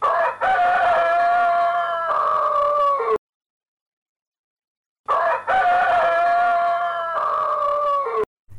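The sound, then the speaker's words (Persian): Rooster crowing, two loud, harmonically rich crows of about three seconds each, separated by a stretch of silence. “صدای خروس بود.”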